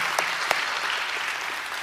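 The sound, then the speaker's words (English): A church audience applauds to welcome guests: steady, even clapping from many hands continues throughout with no break. “Hey, Bridge family, can we put our hands together and welcome all of our guests to church today?”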